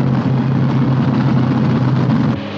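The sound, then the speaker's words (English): Propeller plane engine roaring low past a white cross on rocks during a flying run: a loud, steady droning hum with strong low harmonic tones, holding level before easing slightly in the final moments. “Scott's plane flies towards the cross. He pulls the yoke hard to the right and leans over to Evans. They zip past the cross.”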